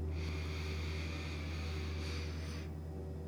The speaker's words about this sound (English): Take a big belly breath in.